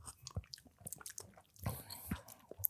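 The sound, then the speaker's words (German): Coffee being sipped and tasted, a quiet slurp with faint mouth and swallowing noises. A few soft bursts, with the clearest noisy slurps just past the middle. “Nehmen wir mal einen Schluck.”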